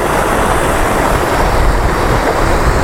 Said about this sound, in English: small waterfalls. Here's one. Wow. Yeah. That's definitely a waterfall.